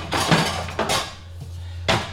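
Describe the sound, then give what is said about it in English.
A saucepan is taken out in a kitchen, giving a few brief metallic clatters and knocks of cookware, spread apart, with quiet between them. “the next thing I'm going to do is get my saucepan.”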